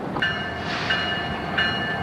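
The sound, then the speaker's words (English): A train rolls along railroad tracks with a loud, steady rumble. Thin, high metallic squeals rise briefly above it a few times. No one speaks. “You can hear it on its way to wherever it's being sent to. The railroad tracks are a good place to record because it gives you that, like, downtown-y feel.”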